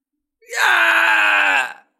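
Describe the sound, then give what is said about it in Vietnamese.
A creature screams in agony as its body is torn apart, a single sustained, harsh voiced cry lasting just over a second, loud and steady before cutting off. “Sinh linh ấy hét thảm, ánh mắt đỏ đậm, giãy giụa không ngừng, rít gào la hét.”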